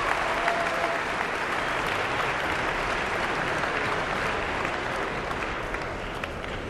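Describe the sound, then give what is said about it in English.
A Carnegie Hall concert audience applauds to call the soloist back to the stage. The clapping is dense and steady and holds at an even level throughout, with no voices. “The audience certainly appreciative and calling her back to center stage here at Carnegie Hall.”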